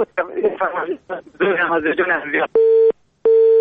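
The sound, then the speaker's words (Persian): After a caller's phone line drops, a short stretch of talk gives way to a telephone busy tone: two steady, evenly spaced beeps with silence between them. “متاسفانه تماس برادر ما قطع شد و ما نفهمیدیم که کدام آهنگ فرمایش دادن.”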